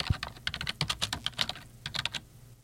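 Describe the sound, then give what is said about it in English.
Typing a name on a computer keyboard: two short bursts of rapid, light key clicks separated by a brief pause, with no talk. “Okay, so when we type in Jimmy Carter, a number of things come up.”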